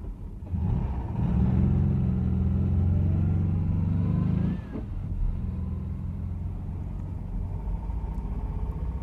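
A taxi's engine rumbles steadily as it drives, louder for the first half and then settling to a slightly quieter, even drone; no voices are heard.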